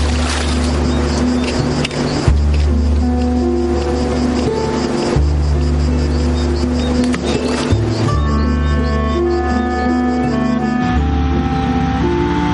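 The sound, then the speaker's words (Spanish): A car engine drones loudly and steadily as the vehicle drives on through a tunnel, its low hum shifting in tone a few times. “El coche se vuelve a poner en marcha y atraviesa un túnel.”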